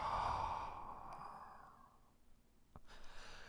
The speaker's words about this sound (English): And exhale completely for four.